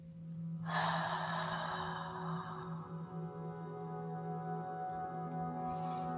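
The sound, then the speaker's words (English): A deep breath drawn in during a guided meditation: a single long, airy rush of breath that swells and slowly fades over a faint, steady hum. “Deep inhale through the nose. And exhale out the mouth.”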